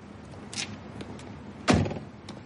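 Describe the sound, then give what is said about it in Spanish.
A man gets out of a dark, dust-covered car that has stopped beside a house's front garden. A few soft clicks and rustles come before one loud car-door thunk, with no talk. “Un coche se detiene junto al jardín de entrada a la casa. El vehículo es oscuro y está cubierto de polvo.”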